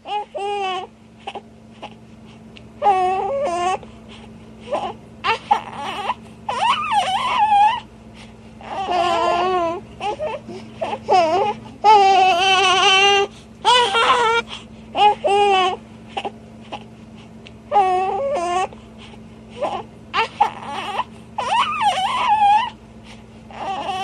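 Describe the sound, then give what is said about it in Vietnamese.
A baby boy cries and wails in a warm police chief's office, with repeated loud harmonic cries broken by whimpers and sobbing gasps over a steady low hum. “Thằng bé vẫn cứ la hét, người ta tưởng nó rét. Nhưng khi vào phòng giấy ông cảnh sát trưởng ấm nóng, đứa bé vẫn kêu khóc.”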